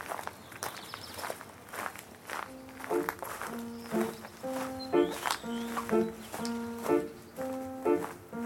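Footsteps of a man walking, a steady run of soft, evenly spaced steps heard throughout, with gentle tonal musical notes joining in partway through.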